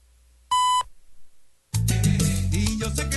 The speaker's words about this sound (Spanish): Al oír el tono serán 15 horas, 32 minutos, 0 segundos.